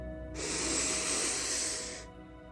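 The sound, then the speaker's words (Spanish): A single deep inhalation taken during a guided morning meditation: a steady, airy breath lasting nearly two seconds, moderately loud and alone, with no talk. “Y ahora respira profundo”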